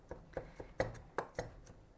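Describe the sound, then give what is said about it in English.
A knife chops garlic finely on a board in a quick, uneven run of many light, crisp taps, fairly faint and with no talking. “So I'm just chopping up the garlic super fine and kind of mixing it in with the chipotle stuff as I go.”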